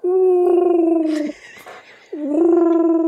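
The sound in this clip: A human voice imitates a dog whimpering and crying to be let out of a room, giving two long, wavering, whiny cries separated by a short, breathy gap.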